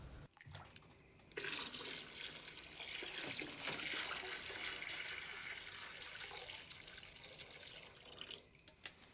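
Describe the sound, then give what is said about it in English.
Hot water poured from a large pot into a bath makes a steady splashing rush. It starts after a brief pause, keeps going for several seconds, then thins out at the end. “Pollock lifts a large pot of hot water from the stove and carries it into the bathroom. He pours it into the bath, where Lee is lounging.”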